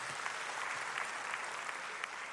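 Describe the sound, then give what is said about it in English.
Audience applause for the tech team at a faith talk event: an even, continuous patter of many hands clapping, fairly faint and steady throughout. “can we just give a round of applause to our tech team? Palapakan natin sila.”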